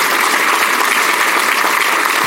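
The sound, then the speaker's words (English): A round of applause from an audience at a civic club gathering: dense, even clapping that holds steady and loud throughout, with no voices over it. “Can we give them a round of applause, please?”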